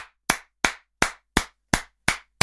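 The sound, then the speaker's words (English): Sharp, evenly spaced hand claps, about eight in a slow steady rhythm, each crisp and clear with silence between them and no talk. “But must say good morning and give a round of applause”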